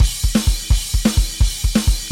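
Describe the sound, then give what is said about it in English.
A full drum kit plays a rock bridge groove whose extra kick drum notes create triplets. Many rapid, loud kick and snare strikes form a choppy, jumpy rhythm that repeats under a constant hiss of cymbals. “And when you play it with the full kit, sounds like this.”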